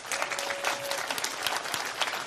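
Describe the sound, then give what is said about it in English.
A church audience applauds, with dense, steady clapping that holds at an even level for about two seconds. “And so last week, you can clap, good.”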